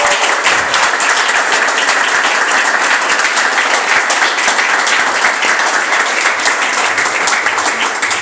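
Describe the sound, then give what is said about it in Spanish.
Loud, sustained audience applause for territorial community-media representatives who have just spoken. Dense, even clapping continues unbroken through the whole clip, with no speech. “Así que voy a pedir un aplauso más a todos los referentes territoriales que acaban de hablar.”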